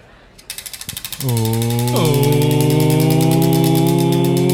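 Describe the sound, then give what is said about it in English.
A spinning prize wheel gives a quick run of ratcheting clicks, then a loud, steady buzzing tone takes over, stepping up in pitch once before holding level. “So, there's nothing from last week then, so shall I spin the wheel?”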